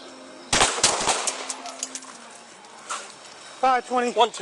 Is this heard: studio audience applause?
no